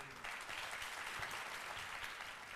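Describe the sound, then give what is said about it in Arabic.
Audience applause greeting student ambassadors at a ceremony: dense, steady clapping that begins abruptly and holds at an even level to the end. “تعالوا نتعرف عليهم بتصفيق عارم من الجمهور.”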